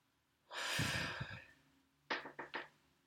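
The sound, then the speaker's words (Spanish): A deep, slow breath, a long breathy inhale and sigh, followed by three short, quick puffs of breath, all quiet and without speech. “vamos a respirar.”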